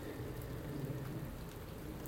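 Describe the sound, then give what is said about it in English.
Steady rain falls on a morning, a soft continuous patter that stays even throughout with no voices. “it is a lovely morning. I do love this rain.”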